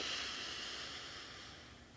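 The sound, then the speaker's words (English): A single nasal inhale during a guided breathing exercise: a soft, steady airy hiss that slowly fades over about two seconds, with no talking. “Again, inhale through your nose. And exhale through your mouth. One more time. Inhale.”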